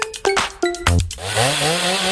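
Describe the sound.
A power saw from a Dnipro-M tool store advertisement sounds a few short tonal bursts, then its motor spins up with a whine that climbs steadily in pitch.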